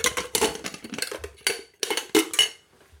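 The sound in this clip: Metal clatters and clinks as a Trangia camping cook set is handled, a series of sharp rattling knocks of pots and parts with quiet gaps between them.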